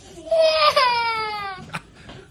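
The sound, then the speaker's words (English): A young child crying in a tantrum: one long, loud wail whose pitch slides steadily downward, followed by a brief sob-like burst and a fading whimper. “I mean, it's a kid who's throwing a tantrum.”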